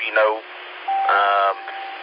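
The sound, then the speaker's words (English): A radio repeater beep marks the end of a transmission when the mic is released. It is a single short, steady mid-pitched tone of about a quarter second, set between bursts of talk over the radio. “When you release the mic on this repeater, you hear a beep.”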